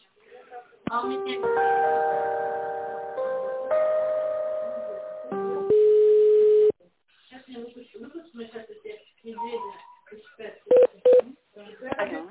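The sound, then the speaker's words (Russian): Electronic telephone tones play while a business call is transferred to another department: a few sustained chord-like tones change pitch in steps, then a voice speaks over the line. “Сейчас я соединю вас с тендерным отделом.”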